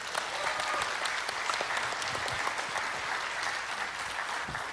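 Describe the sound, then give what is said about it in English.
Audience applause breaks out at the close of a prayer in a church service, welcoming someone on stage. Steady, dense clapping continues at an even level through the whole stretch, with no distinct voices above it. “Would you give him a hand, please?”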